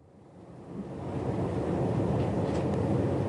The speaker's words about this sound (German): Im großen Bogen fährt der Regionalzug das letzte Stück Richtung Südosten am Flughafen von Marignan vorbei